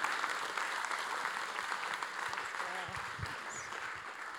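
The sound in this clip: Audience applause welcoming two speakers to the stage at a morning gathering: a steady, dense wash of clapping hands that holds at an even level throughout.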